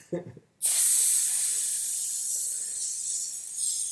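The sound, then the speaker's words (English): Filet mignon steak sizzles in a hot skillet: a loud, bright hiss bursts in abruptly and then holds steady, fading only slightly over the following seconds. “Some filet mignon. let's light up that skillet.”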